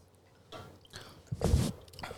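Chewing food, with soft squishy bites that build to a louder burst of wet crunching near the middle before fading, and no talk over it.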